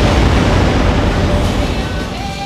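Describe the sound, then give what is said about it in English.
A volcano eruption sound effect gives off a loud, continuous roaring rumble, heavy in the low end, holding almost level from start to finish. “Mount Zeno. Stand back, everybody. Is about to explode. Oh, God, it's going to blow.”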